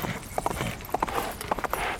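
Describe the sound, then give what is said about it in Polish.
Hooves of a messenger's horse being urged on: a quick, uneven run of clopping hoofbeats lasting about two seconds, sharp knocks over a soft rushing background. “Goniec popędził konia. Czas naglił.”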